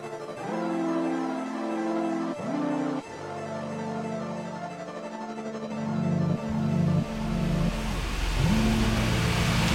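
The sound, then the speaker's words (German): A car driving toward a harbour: a steady mid-pitched engine hum that drops and resets at several gear changes, with the engine sound swelling to its loudest toward the end. “Wir fahren ohne Christian Richtung Hafen.”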